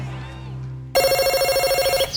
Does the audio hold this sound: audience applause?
no